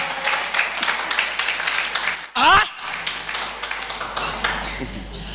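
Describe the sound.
A church audience claps for a pastor, a dense, steady patter of many hands running through the whole stretch, with a voice speaking over it and a brief louder noise near the middle.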